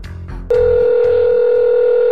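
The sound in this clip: A steady telephone line tone begins abruptly after a brief voice and holds loud and unbroken to the end as a call is placed.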